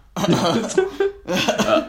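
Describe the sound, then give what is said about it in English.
A human voice imitates a cough, mimicking a gadget that coughs whenever cake or other food is eaten: two rough, throaty bursts separated by a brief pause. “it just coughs. It goes like,”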